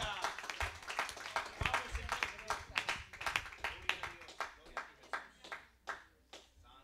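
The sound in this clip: Congregation applauding during a bilingual church service. Many distinct hand claps land in a fairly even rhythm, faint overall and thinning toward the end, with voices underneath.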